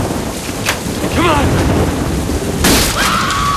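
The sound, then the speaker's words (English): Heavy rain lashes a house roof in a loud, dense, unbroken hiss, with a deep booming crash breaking through partway along. “Leah and Cooper emerge onto the rain-lashed roof of the house.”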